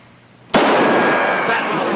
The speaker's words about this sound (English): You can't shoot off a gun in a bank.